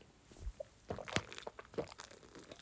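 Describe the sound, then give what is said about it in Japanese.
A can of chuhai being opened: a few quiet clicks and handling sounds, then a sharp pop from the tab, followed by a couple of softer crackles, all faint overall. “3本目開けちゃいますね。わ、ちょっとチューハイ、”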